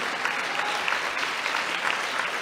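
An audience claps for Ho Chi Minh, a thick, continuous patter of many hands that holds steady without pause.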